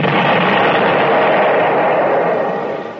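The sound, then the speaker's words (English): Artillery fire from guns on a hill produces a dense, continuous rumbling roar with no distinct individual blasts. The heavy wash of noise stays loud throughout and eases slightly toward the end. “How long do you think we can hold out against that artillery? If the artillery on the hill don't get us”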